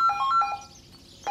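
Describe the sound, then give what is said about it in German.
An electronic telephone ringtone plays a quick run of bright beeping tones, pauses briefly, then starts another burst of beeps. “Das Telefon klingelt, ein Problem in der Firma.”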